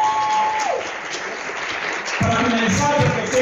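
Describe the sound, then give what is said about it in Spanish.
Audience applause at a municipal sports event in a rehabilitated park in Quito: steady, dense clapping throughout, with a voice speaking over it in the second half. “quiero pedir un fortísimo aplauso para que, como lo decía al inicio de la intervención, está dando luz a través del deporte.”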